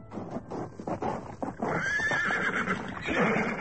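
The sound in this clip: A horse neighs loudly while its hooves clatter away at a gallop. Quick, uneven hoofbeats come first, then a long, wavering whinny carries over the continuing hoof noise.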